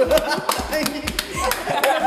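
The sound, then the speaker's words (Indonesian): Audience clapping together for a man being honored; many distinct claps in a loose, repeated rhythm, with voices speaking underneath. “Tepuk tangan berjamaah untuk Bapak Alfonso.”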